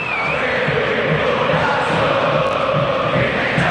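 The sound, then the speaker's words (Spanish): River Plate fans fill the Monumental stadium on a Wednesday night as the team takes the field against Gimnasia y Esgrima La Plata. A loud, dense crowd roar holds steady, carrying a rhythmic chant-like pulse throughout. “Esta es la banda sonora del miércoles por la noche. ¿Qué merece esta hinchada? El público de River.”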